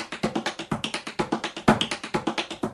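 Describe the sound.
Tap shoes strike a hard floor in a four-count paddle and roll, a tap dance rudiment. Many crisp, evenly spaced taps form a quick, steady rolling rhythm, with one slightly louder accent about two-thirds of the way through.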